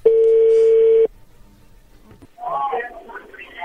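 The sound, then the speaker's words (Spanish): A phone line connects with one loud, steady electronic tone lasting about a second. A quiet stretch of line noise follows, then a voice begins talking. “a ver, ya entró la llamada.”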